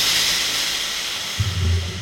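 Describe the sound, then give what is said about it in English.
A shower head sputters in a steam-filled bathroom. A steady, bright hiss of spraying water runs throughout, and a low rumbling surge comes in during the second half. “steam filled the bathroom. The shower head sputtered,”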